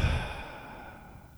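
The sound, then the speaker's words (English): Deep breath out during a guided breathing exercise: a single soft, airy exhale, faint and breathy, fading away over about a second and a half. “Take another deep breath with me. Just a good long draw. In and out.”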